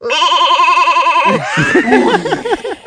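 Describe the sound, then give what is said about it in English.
A goat bleats in one long, loud, wavering cry lasting over a second, followed by a busier jumble of shorter rising and falling cries. “We bought you a new goat.”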